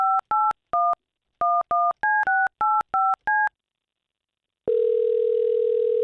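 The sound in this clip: Telephone keypad dialing while placing a call: ten short two-tone beeps in quick, slightly uneven succession, then a pause, then a steady continuous line tone that lasts to the end.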